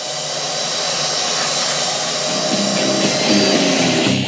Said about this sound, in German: saugt sehr gründlich mit dem Staubsauger die Krümel einer Bio-Reiswaffel direkt vor unseren Füßen auf.